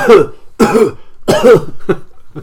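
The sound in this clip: A voice deliberately faking sneezes: a few loud, breathy, voiced bursts with short gaps between them, the last ones shorter and quicker, with no other sound around them.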